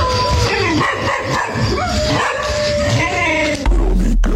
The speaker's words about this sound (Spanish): Escuchó los perros aullar.